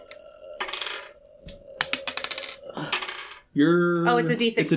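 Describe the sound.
Dice roll across a table during a tabletop role-playing game, giving a quick run of sharp rattling clicks and clatter, with a few scattered knocks before and after.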